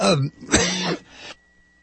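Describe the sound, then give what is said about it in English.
A harsh cough or throat clearing from someone suffering a persistent cough, heard as a few rough, throaty voiced bursts that trail off into near silence. “Sorry about that. This damn cough is just going to kill me.”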